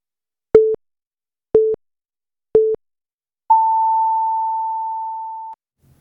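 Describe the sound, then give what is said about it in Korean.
Radio noon time signal pips on a Korean radio station: three short, identical beeps spaced one second apart, then a longer, higher tone held for about two seconds before cutting off. “KBS가 잠시 후 정오를 알려드립니다.”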